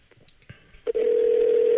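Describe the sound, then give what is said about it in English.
A telephone dial tone comes on as a loud, steady, unbroken hum after a few faint clicks and a short handset clunk. “I don't want to do all the dialing tone. That's why I didn't have to turn on the volume until now.”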